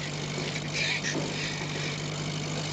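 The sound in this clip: A convertible's engine runs as the car is driven, a low, even drone at modest level with a faint steady hum underneath.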